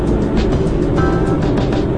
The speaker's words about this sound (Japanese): 早めの車がたくさん走っているような道に来ております